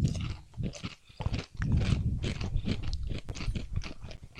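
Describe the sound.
Salty, crunchy Hong Kong snacks with a flavor packet being chewed, a loud, continuous stream of crisp crunches and wet mouth noise, dipping briefly before a steady run of chewing, with no talk.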